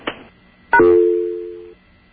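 Telephone being dialed for a collect call to the operator: a short click, then a single steady tone lasting about a second, clear and alone.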